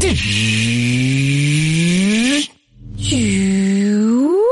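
Two long rising whines, synthetic and whirring, serve as the electric car power-up effect in a Volkswagen electric car advert. The whines are loud and separated by a brief moment of silence.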